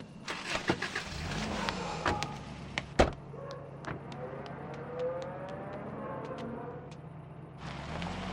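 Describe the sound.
A car starts and drives away, its engine droning with a shifting pitch. A few sharp knocks come early, and the engine noise swells again at the end. No voices are heard.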